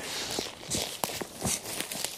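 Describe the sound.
Footsteps walking down a slope: a few irregular scuffing and crunching steps, fairly faint and uneven in rhythm.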